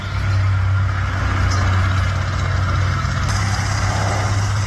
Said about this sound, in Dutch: Ik dacht eerst, het is een vrachtwagen, maar het is een vliegtuig. Wel een transportvliegtuig. Maar die vliegt dan ook heel laag.